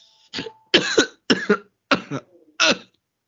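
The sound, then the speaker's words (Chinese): Five harsh coughs in an uneven run from someone choking on saliva, each a short burst, with the middle ones loudest and no speech between them. “怎么换你换你在咳了？ 没有，我刚刚被口水口水噎到，我不知道为什么，就是口水多到会把我噎到，好恐怖。”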